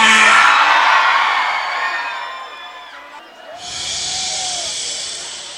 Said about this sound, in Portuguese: Primeiro eu quero ouvir o grito da mulherada.